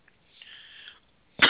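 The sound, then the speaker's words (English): A single loud, harsh cough from someone with a bad cough bursts out abruptly near the end, after a quieter, breathy stretch. “I got a wicked cough today.”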